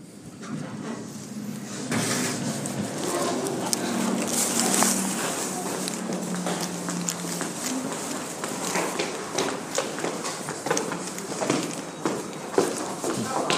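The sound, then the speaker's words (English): Elevator doors in a building in Sydney, heard as a steady mechanical hum with sliding movement and a long run of crisp, rhythmic clicks and taps that continue to the end. “what you just heard there was the recording of the lift in the building”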